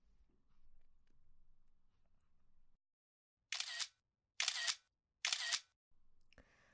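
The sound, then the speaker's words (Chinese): Three crisp camera shutter clicks fire at an even pace after a faint low hum. Each is a short bright burst, and silence separates them. “拍几张照片做证据，省得你以后不认账。”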